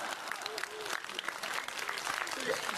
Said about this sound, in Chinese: 大伙鼓掌让他请客。